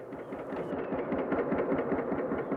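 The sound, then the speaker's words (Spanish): A small boat's engine, tuned up two days earlier, runs with a steady, rough, low-to-mid rumble that pulses slightly and holds at a constant level throughout. “El motor lo pusieron a punta hace dos días.”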